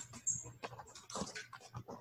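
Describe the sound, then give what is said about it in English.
A dog named Huxley makes brief whimpering and snuffling noises in a household, short uneven bursts that come and go over a low background hum, with no words spoken. “Oh, first dog appearance on the podcast.”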